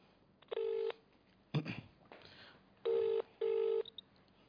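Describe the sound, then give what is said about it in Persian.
Telephone tones while calling a number: three short, steady electronic tone bursts at a moderate level, with a brief clatter between the first and second, over low background noise. “خب داره زنگ میخوره.”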